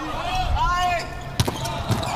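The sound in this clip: A ball bouncing ahead of a serve in a match involving the German team gives two sharp thumps on the floor, about half a second apart, under a commentator's talk.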